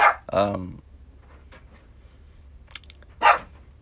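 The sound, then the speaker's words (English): A dog barks in a few sharp, loud bursts, two close together at the start and another after a quiet pause. “let me go put my dog up, because she's just gonna keep barking.”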